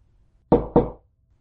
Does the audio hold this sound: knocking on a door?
yes

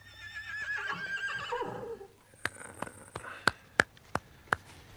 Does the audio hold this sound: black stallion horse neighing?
yes

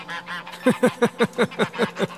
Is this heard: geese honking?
yes

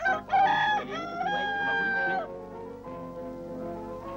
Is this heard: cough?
no

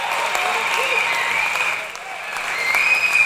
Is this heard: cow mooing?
no

